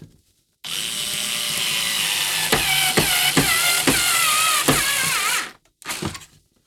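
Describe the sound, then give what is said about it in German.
A power screwdriver drives a screw home with a loud, continuous whine lasting several seconds, broken by several rhythmic clicking pulses, then cuts off and gives one short final burst. “Schraube rein.”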